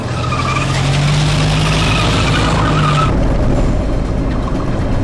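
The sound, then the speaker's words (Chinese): A car drives off quickly, with a loud, steady engine drone and rough tire and road noise. The engine tone holds for about three seconds, then gives way to broad, continuous rushing noise. “先回去，到马路上绕一圈。 是，快点开车。”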